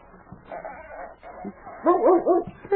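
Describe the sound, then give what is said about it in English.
A dog in a woodshed whimpers and yips, giving a few thin, wavering whines that grow louder and more tonal toward the end, over faint background noise. “Hey, that's a dog back here in the woodshed. I wonder what kind of a dog.”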